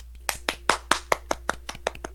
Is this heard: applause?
yes

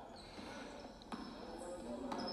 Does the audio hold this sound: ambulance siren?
no

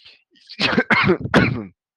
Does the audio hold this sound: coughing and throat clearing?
yes

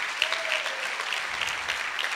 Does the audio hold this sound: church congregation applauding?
yes

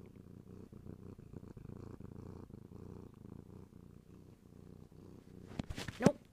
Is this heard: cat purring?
yes

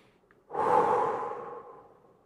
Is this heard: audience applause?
no

